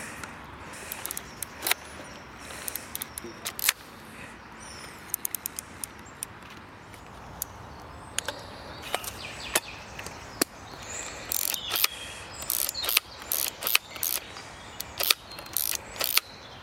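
Ratcheting clicks of a film camera's winding mechanism as it is loaded: many sharp mechanical clicks and short ratchet runs arrive irregularly over a soft, steady hiss, getting busier toward the end.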